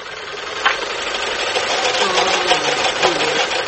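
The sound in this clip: A sewing machine whirs noisily while winding thread onto a bobbin with its built-in winder, a steady rough buzzing drone that holds even throughout with faint rattling.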